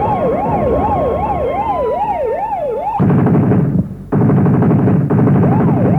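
Police siren wailing in smooth, rapid rising and falling cycles, then cut off by a loud, dense rattling burst that pauses briefly and resumes.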